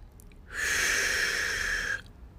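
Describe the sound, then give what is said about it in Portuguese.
One slow, deep breath taken during a guided relaxation exercise, a soft airy hiss lasting about a second and a half, heard alone with no talk. “Respirar profundamente.”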